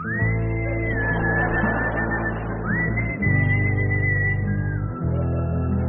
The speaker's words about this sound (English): And then he began gleefully to whistle his favorite song.